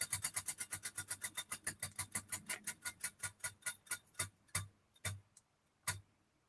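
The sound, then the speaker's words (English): A prize wheel spins on a live show, its pointer clicking rapidly against the pegs. The clicks gradually slow and spread out, then the last few come alone before the wheel stops. “All right, we're going to go ahead and spin the wheel.”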